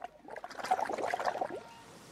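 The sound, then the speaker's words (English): Air is blown through a straw into a cup of cola, producing a continuous burst of bubbling and gurgling liquid that swells and then fades over about two seconds. “She takes Harry's cola and blows through the straw.”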